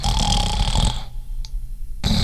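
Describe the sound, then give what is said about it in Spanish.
A person snores loudly with a harsh, rasping inhalation that stops abruptly, followed by a brief quiet gap and the start of another rough breath. “Si roncar fuera un deporte olímpico, yo ya tendría medalla de oro.”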